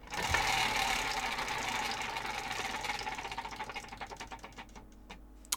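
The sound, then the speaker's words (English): A prize wheel spins with a rapid run of ratcheting clicks that gradually spread out and slow until the wheel stops. “So shall I spin the fated wheel?”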